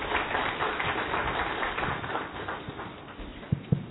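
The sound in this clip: Applause from an audience welcoming a speaker at a course session, a dense, steady wash of many hands clapping throughout, with a couple of sharper claps standing out near the end.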